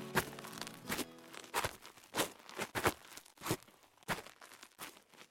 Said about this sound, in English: He spied a Wexit sign on the edge of town and walked up the driveway.